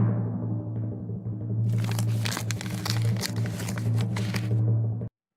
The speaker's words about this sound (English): And now, the envelope, please.